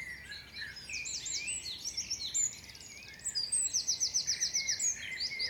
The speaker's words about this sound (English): And by mistake, I recorded a dawn chorus without even knowing what that was.